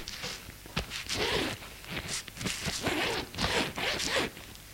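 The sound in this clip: Something on a bed is unzipped and opened, with many quick rasping zip strokes in an uneven rhythm, some sharper and louder than others.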